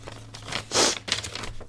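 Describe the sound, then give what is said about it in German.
A paper envelope is torn open with a loud ripping burst lasting under a second, followed by lighter crinkling rustles of paper. “Ich glaube, wir, wir sollen mal so einen Umschlag öffnen, habe ich gerade gelesen hier.”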